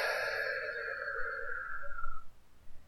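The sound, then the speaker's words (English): A slow, deep breath, drawn in through the nose and let out through the mouth during a guided relaxation exercise, sounds as soft, airy hiss that holds steady, then thins and fades away after about two seconds, with no talking. “We're going to begin by taking a deep breath together, in through the nose and out through the mouth. Breathe in and breathe out.”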